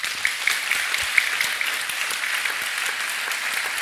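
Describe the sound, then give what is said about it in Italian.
Audience applause welcomes a guest at a public event, a steady, even roar of many hands clapping with a few sharper claps standing out, sustained at moderate loudness for the whole stretch without talk. “L'altro ospite che saluto e vi chiedo di salutare con un applauso è Michael Drissen”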